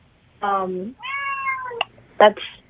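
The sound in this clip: A cat meows three times. The first call is drawn-out and falling, the second longer and higher, and the last a short, sharp cry.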